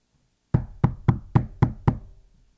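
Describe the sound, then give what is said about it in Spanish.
Six sharp knocks on a door, evenly spaced and loud, each with a short hollow ring, heard alone with no other sound. “Le están golpeando la puerta, señores.”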